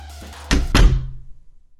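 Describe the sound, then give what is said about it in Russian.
A studio's inner door is shut firmly, giving a solid thud followed closely by a second, heavier impact, then a short low rumble that fades away. “Воспользовавшись заминкой, Иван накинул куртку и поспешно вышел, плотно затворив внутреннюю дверь студии.”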